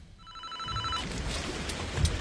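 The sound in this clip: A mobile phone rings with a steady electronic ringtone of layered tones for about a second, then broad rustling noise takes over with no talk.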